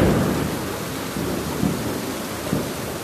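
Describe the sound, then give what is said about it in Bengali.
Rain falling during a thunderstorm: a steady, broad hiss of rainfall with low rumbling thunder underneath and a couple of soft, deeper swells, with no voices. “বৃষ্টির শব্দটা অনেকেই উপভোগ করেন, তাই আর কি শোনাচ্ছি যাদের একটু ঘুমের সমস্যা।”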